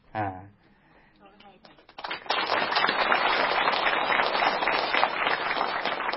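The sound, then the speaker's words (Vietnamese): Audience clapping breaks out after a saying at a Buddhist dharma talk. A voice speaks briefly, then dense, steady applause rises and holds loud to the end. “Các vị vỗ tay, tôi biết câu đó hay rồi.”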